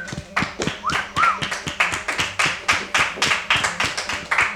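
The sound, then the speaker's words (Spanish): Audience applause as a band walks onto a stage at a live show: many hands clap loudly and steadily, forming a fairly regular, rhythmic pattern of dense claps that continues throughout. “Un aplauso.”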